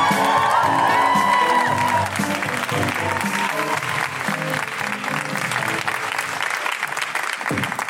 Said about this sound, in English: So, are we ready to see some stand-up comedy? I'm ready. Then put your hands together and make incredible woohooing noises for the wonderful Njambi McGrath!